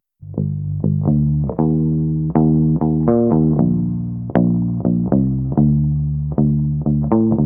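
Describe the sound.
A gnarly, distorted bass line is played through an amp. Many plucked low notes follow one another in a steady rhythm, each with a buzzing, gritty tone that sustains and decays before the next.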